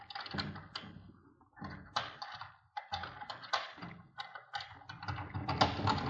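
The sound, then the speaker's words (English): Faint metallic clicking and rattling as a door lock is picked, with many small ticks and scrapes arriving in irregular bursts separated by brief pauses. “this lock doesn't look as though it'll be too difficult to pick. Let's see.”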